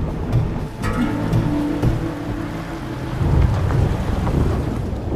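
Steady rain falls under a continuous low rumble of thunder, with a heavier roll of thunder in the second half, and no voices.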